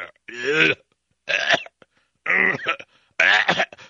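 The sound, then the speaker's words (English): A voice imitates a woman's fit of sneezing and coughing with four loud, harsh vocal bursts separated by short pauses. “She sits down, starts sneezing and coughing.”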